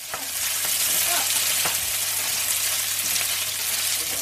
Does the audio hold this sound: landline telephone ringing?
no